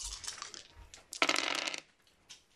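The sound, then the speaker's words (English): Dice, an eight-sided and a six-sided die, are rolled onto a table during a tabletop role-playing game, giving a short, bright clatter of quick rattling hits, alone, with a few faint knocks before and after. “Roll it. So D8 plus a D6.”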